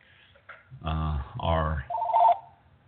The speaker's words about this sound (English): should be using our guest calling line instead of my home phone.